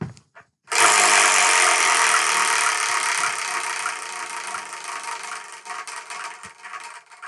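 A number wheel spins with a loud, continuous whirring rush that starts abruptly, then slowly fades and thins as it loses speed.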